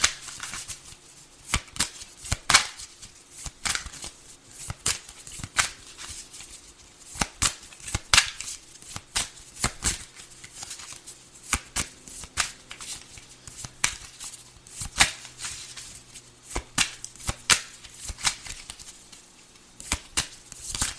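Cards are shuffled, an 80-card deck handled during a card reading. Many crisp, sharp snaps and riffling clicks come in irregular bursts throughout, with no talk.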